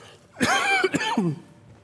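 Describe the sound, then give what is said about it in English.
Throaty, raspy coughing from a person recovering from illness, a short run of voiced coughs in quick succession, fairly loud and heard alone without speech. “I'm actually getting better. It's just at that point now where the coughs are there.”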